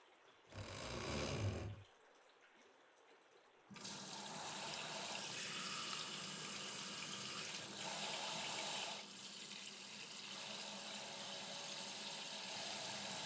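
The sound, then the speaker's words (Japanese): Water runs from a tap while hair is rinsed: a short splashing burst, a pause, then a long, steady gush that swells louder for a stretch before settling back to a continuous flow. “ちゃんと洗い流さないと髪に良くないですから。”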